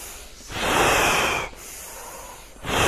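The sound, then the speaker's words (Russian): A long, full inhale during kriya yoga breathing practice: a loud, airy rush of breath lasting about a second, followed by a softer, steady stretch of breathing. Another strong breath begins at the very end. “Полноценный вдох длинный.”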